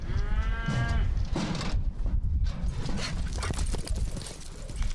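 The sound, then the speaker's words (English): A rodeo chute gate swings open and a steer bolts out, chased by a student athlete at a college rodeo; a loud, dense clatter of metal and pounding hooves fills the whole stretch. “That's the sound of a chute gate opening and a steer taking off running.”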